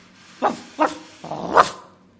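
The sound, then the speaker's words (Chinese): A dog barking three times: two short, sharp barks, then a longer, rougher bark, heard alone. “动物和动物之间可以表达，狗就可以狗吠”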